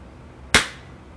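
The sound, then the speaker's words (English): A single gunshot: one sudden sharp crack with a short fading tail that stands alone over a low, steady background hiss. “White Walker was shot.”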